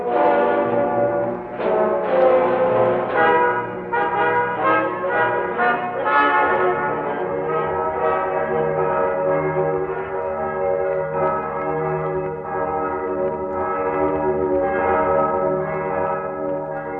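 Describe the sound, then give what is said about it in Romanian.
Church bells strike noon near a monastery, many loud overlapping strikes blending into a rich, resonant peal that rings on without a break. “Clopotele bat ora în miezii.”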